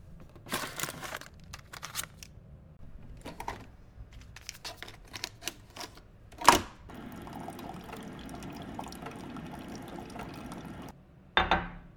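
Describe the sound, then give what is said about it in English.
Coffee being made in the morning: a few scattered taps and clatters, one sharper knock, then several seconds of steady pouring or filling liquid, ending in a short louder burst. No talking. “It's bright and early, so first things first, let's make some coffee.”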